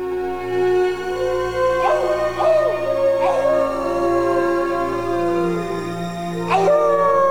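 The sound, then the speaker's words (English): Howling rings out in a city park: several rising and falling wailing cries, a few in quick succession and one later, over a steady low hum. “Two joggers stop and turn round to see if they can see where the howling's coming from.”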